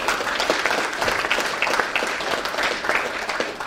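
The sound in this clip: An audience applauds to welcome a speaker at a talk on pediatric eye disease, with a dense, steady patter of many hands clapping at a fairly even level.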